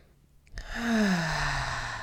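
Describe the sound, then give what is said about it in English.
One deep cleansing breath, let out as a soft voiced sigh whose pitch slides downward, quiet and heard alone. “let's just breathe into the body. Take a few deep cleansing breaths”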